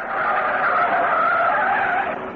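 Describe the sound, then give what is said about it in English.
Car tires squeal as the car speeds around corners, a loud, sustained high-pitched screech that holds steady from start to finish. “Okay, so Myrtle drives off madly in all directions. After a few corners taken Myrtle style, he starts to get a bit jumpy himself.”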